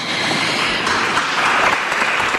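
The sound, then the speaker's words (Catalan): Applause for a speech during a city council investiture plenary session: a continuous, dense patter of many hands clapping at steady, moderate loudness for the whole stretch, without talk. “Aplaudiments a Colau en aquest discurs.”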